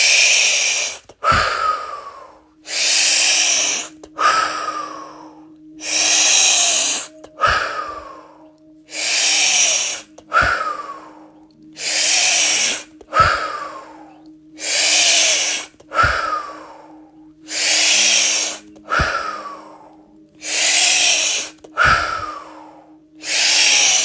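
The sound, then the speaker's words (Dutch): Deep breathing during a guided breathing exercise: many forceful breaths in and out in a steady cycle, each a loud airy rush separated by brief pauses, over a faint low hum. “En daar gaan we. Adem in.”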